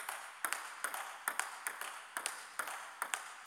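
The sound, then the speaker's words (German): Children play table tennis at school break: a quick, steady run of many light, hollow ball clicks bouncing back and forth, fairly faint, over a soft background hiss. “In der Pause spielen die Kinder auch gerne Tischtennis.”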